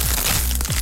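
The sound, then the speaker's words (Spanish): Crunch tortilla chips being bitten give a dense, crackly crunch that lasts under a second, rough and continuous with no clear gaps. “Atrévete a probar el sabor único de Crunch, las tortillitas chips más crujientes, saludables y sabrosas.”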